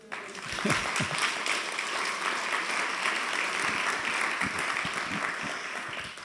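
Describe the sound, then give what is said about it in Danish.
Applause for a speaker: a dense, even wash of many hands clapping that swells quickly and holds steady for several seconds before easing slightly at the end. “Tor Arne, han skal nesten ha klapp.”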